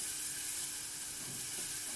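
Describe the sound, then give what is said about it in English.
Onion and garlic sizzle in butter in a pan, a steady, fairly faint frying hiss that continues evenly throughout with no talk. “what I'm going to do now is throw in my onion and my garlic. Stir that around”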